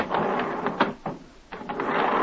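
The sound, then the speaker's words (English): An elevator with jet propulsion makes a rough, continuous mechanical whooshing rumble. Pulsing bursts rise out of it, and it dips briefly in the middle before building back up. “Okay, 14th floor, here I come. Now, there's a novelty. An elevator with jet propulsion.”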